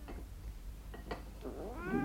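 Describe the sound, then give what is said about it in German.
A fat cat being fed gristly scraps under a tablecloth at a breakfast table: a few short soft sounds, then a drawn-out, clearly voiced meow at the end. “Mrs. Beinon schiebt unter den Tischtuchfransen die knorpeligen Stücke ihrer dicken Katze zu.”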